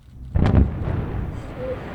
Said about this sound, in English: Here's a memorable moment from Chris Bentley's trip to the Sunrock Quarry in North Carolina, where he watched 50,000 tons of stone get blasted to smithereens.